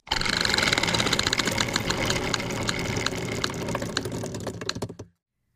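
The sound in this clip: A spinning wheel of chance clatters with dense, fast clicking that stays loud for about five seconds, its last ticks spacing out slightly before it cuts off abruptly into silence.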